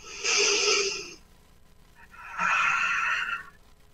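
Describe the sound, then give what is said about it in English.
A deep breath taken during a guided meditation: two long, soft, airy breath sounds separated by a short pause, with no talking over them. “Beautiful, nice deep breath, a subtle alignment occurring.”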